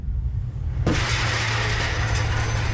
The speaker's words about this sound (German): Du kannst doch nicht mit 30 auf den Bordstein fahren und die Parkuhr ummähen.